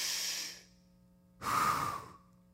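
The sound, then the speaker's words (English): A voice imitates the labored breathing of a grandfather dying of lung cancer in hospice care: two breaths, a softer airy one, a pause, then a louder, rougher and longer one. No other talk. “I remember watching him breathe. Maybe you've been around this and you've seen it before. It's like,”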